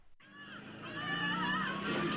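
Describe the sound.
A car engine drones and revs as the player drives in the video game Grand Theft Auto, a wavering tonal hum that grows steadily louder.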